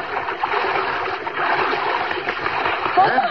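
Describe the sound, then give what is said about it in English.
Splashes from someone swimming out to a raft just offshore at a beach, a steady churn of water that keeps up throughout, with a voice briefly near the end. “Go for an afternoon swim. Out to a raft just offshore. She's sitting there as you swim up.”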